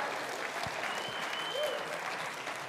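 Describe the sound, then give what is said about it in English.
A church audience claps for a guest worship leader, a dense, even patter of applause. “Let's give her a hand.”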